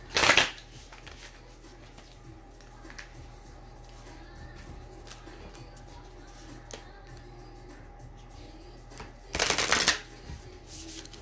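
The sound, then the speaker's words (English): Oracle cards from moon and star seed decks riffle in two brisk, crisp bursts as cards are pulled from the deck. A long stretch of faint handling sounds separates the bursts. “Pull a card. You pull a moon card. I'll pull a star seed, and we'll end this segment.”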